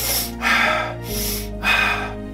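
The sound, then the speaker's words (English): Rapid, deep breathing through the mouth or nose, shown as a demonstration of fast repetitive breaths: a few loud, noisy inhales and exhales alternate in quick rhythm, heard alone without talk. “The repetitive breathing more quickly and deeply, this kind of thing,”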